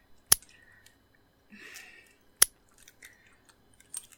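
Two crisp locking clicks about two seconds apart stand out against near silence, with soft rustling and faint scraping between them and a smaller click near the end.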